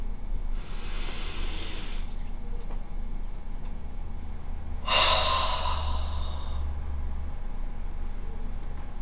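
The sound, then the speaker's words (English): Hard breaths taken during a guided energy-protection exercise: two long, forceful, breathy exhalations, the second louder, over a steady low hum, with no talk. “Okay, so that's our 3 hard breaths.”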